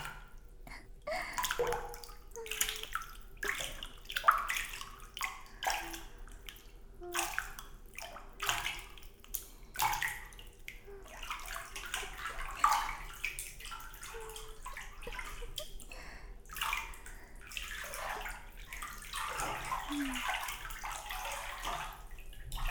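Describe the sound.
Warm water is poured over hair during hair washing, splashing and trickling in repeated irregular bursts that stay fairly faint and continuous.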